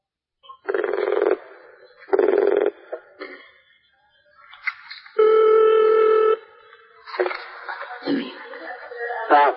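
Telephone dialing and ringing tones at the start of a call-in question session: two short buzzing tone bursts, a few brief beeps, then one longer steady ring tone and more broken tone fragments.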